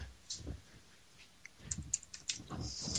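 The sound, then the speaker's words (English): Faint typing of a web address on a computer keyboard, a sparse scatter of soft, irregular clicks over a quiet background. “Let me hold on a second. I'm just typing in”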